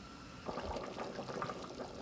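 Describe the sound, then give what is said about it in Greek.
Olive oil is poured into a pot of boiling potatoes and carrots, a steady liquid pour of about two seconds with soft splashing and no talk. “Και σε λίγο θα βάλουμε το λαδάκι.”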